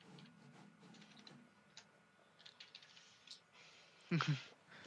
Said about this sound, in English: I'm going to actually type it in. I'm going to put it on Photoshop. I'm going to type it in.